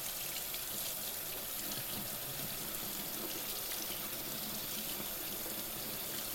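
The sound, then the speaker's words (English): Tap water runs steadily as a dish is rinsed and held under the stream, a continuous faint hiss and splash without pauses or voices. “You might notice how the temperature of the dish changes as you hold it underwater. Adding soap or scrubbing as you need to.”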